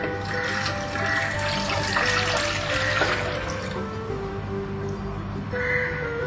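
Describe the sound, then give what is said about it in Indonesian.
Water pours steadily as the first ingredient goes in, a continuous splashing rush with a faint tonal ring that holds for the whole stretch and swells slightly near the end. “pertama yang dimasukkan ialah air.”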